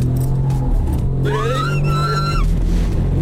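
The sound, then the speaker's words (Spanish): A race car's engine roars as it accelerates down a straight, a loud steady drone with whining tones that climb in pitch for about a second before levelling off. “se sube en el coche. Con la radio, ¿no? Se pone, incluso le dice, vamos a poner el estéreo, que me gusta a mí estas cosas, hacerlas con musiquita. Y Hamilton acelera y ocurre esto.”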